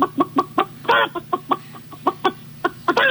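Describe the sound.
Chickens clucking in a henhouse: a rapid, uneven run of many short, sharp clucks, with two louder, raspier squawks standing out. Each cluck is a brief, punchy burst of sound.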